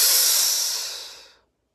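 A slow exhale of breath, a long airy hiss that starts loud and steady, then gradually thins and tapers to silence after about a second and a half.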